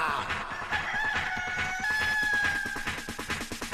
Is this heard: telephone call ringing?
no